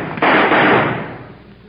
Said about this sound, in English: If those shots were heard, we're going to be in trouble.